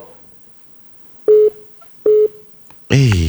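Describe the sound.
Telephone dialing tones: two short, steady, identical beeps with a gap between them, followed by a voice starting to speak.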